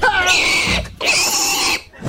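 Pig squealing grunts come in two long, loud bursts separated by a brief gap, each harsh and drawn out.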